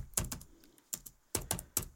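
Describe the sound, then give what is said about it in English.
Keystrokes on a computer keyboard while typing a short email reply, a few sharp, quiet clicks landing in uneven little clusters with brief pauses between them, and no voices. “I typed a period.”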